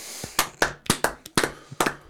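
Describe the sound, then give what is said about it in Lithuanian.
Sparse hand claps: several sharp, irregular slaps spread over about two seconds, fairly quiet, with no voices. “Čia reiškia plojimai, taip?”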